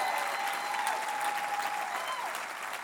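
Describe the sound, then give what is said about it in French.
An audience at an Easter church service gives an ovation, a steady, dense wash of applause from many hands that holds evenly and eases slightly at the end. “Est-ce qu'on peut donner une ovation pour le miracle des vies transformées?”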